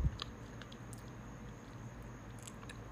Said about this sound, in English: I'm so hungry. I was eating french fries while I'm doing this.